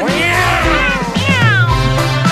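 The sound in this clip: A cat meows several times in a row, loud and clear, each call bending in pitch, with no voices.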